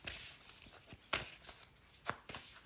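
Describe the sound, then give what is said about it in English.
Oracle cards being shuffled and pulled from a deck: a few quiet, papery flicks and soft slaps at uneven intervals, with no talk. “I just pulled two cards from the Goddess Power Oracle.”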